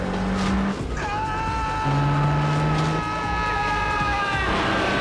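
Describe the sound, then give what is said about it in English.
Car engines rev as the cars pull away and build up speed, one mounting a curb. A whining engine tone climbs sharply about a second in, then holds steady and loud over a low rumble. “Elmo puts the car in gear and drives forward. Kane's car starts towards him. As they build up speed, Kane rides up on the curb.”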